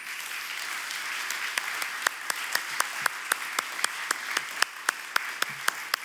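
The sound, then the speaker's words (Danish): Audience applause for two performers at a gathering, a steady wash of clapping with sharp, rhythmic unison claps emerging after the first second and continuing evenly to the end. “La oss gjøre dem en ordentlig klapp.”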